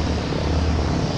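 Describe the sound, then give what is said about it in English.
Engine drone of a World War II C-47 transport plane arriving at an airport, a loud, steady, low rumbling roar that holds without a break. “That's the sound of a World War II C-47 transport plane arriving at Camarillo Airport.”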